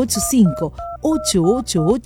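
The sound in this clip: Telephone keypad tones dial a number in a Spanish-language radio advert, about six short two-note beeps in quick succession over a talking voice.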